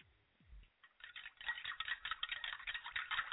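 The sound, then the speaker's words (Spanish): Organo Gold coffee being whisked, a faint, rapid ticking patter that starts after a short pause and continues in quick, uneven strokes. “¡Están batiendo el café de Organo Gold!”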